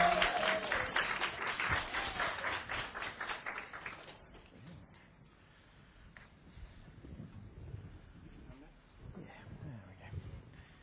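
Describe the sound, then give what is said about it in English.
An audience applauds to welcome a speaker to the front. The dense, lively clapping fills the first four seconds, then breaks off into quieter background sound. “put your hands together as we welcome Clive, who's going to come bring the word.”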